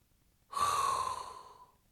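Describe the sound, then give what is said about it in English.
One deep, hot inhaled breath, drawn in sharply and loudly through the mouth. It swells quickly, then tapers off over about a second, heard on its own without talking. “And now there is only one thing left to do, and that is inhale a hot breath”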